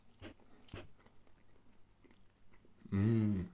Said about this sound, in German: Boah, schmeckt doch geil. Ich schmeck direkt die Takis.